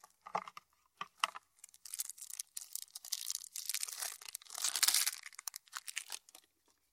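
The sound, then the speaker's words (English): Plastic wrap tears and crinkles as packs of cards from a Fairytale Gloom board game box are opened, with many quick, bright rustles and crackles and no talk. “Okay, so I'm opening the box, and there are two things of cards in here. So I'll open the cards.”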